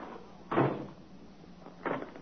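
A door is shut and fastened with a push-button lock, heard as two dull knocks about a second and a half apart, the first louder, with faint background hiss between them.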